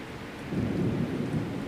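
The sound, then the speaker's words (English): A thunderstorm with rain: a steady hiss of falling rain under a deep rumble of thunder that swells after the first moment and rolls on to the end. “we'll continue to let this play out and maybe mix in a little bit more of Irv Tybell's ultimate thunderstorm here”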